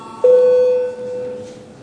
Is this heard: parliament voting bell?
yes